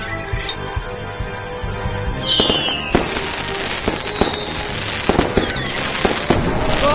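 A grand finale fireworks display: many sharp pops and crackling bangs at an irregular pace, with whistling streaks gliding down in pitch between the blasts.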